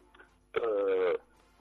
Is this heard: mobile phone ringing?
yes